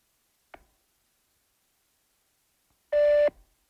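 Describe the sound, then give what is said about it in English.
A voicemail beep before leaving a message: one loud, steady electronic tone lasting about a third of a second, preceded by a short faint click and a long silence. “This is Phillies Nation. Leave a message.”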